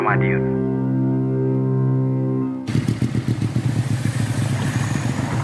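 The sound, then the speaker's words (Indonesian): Engine of a new motorcycle being ridden fast: a sustained harmonic drone gives way midway to a loud, rough, rapidly pulsing engine clatter that continues to the end. “Jenengan itu motor kok banter mentoh, Mbah? Iya, Le. Motorku anyar. Dadi numpake ya kudu banter no”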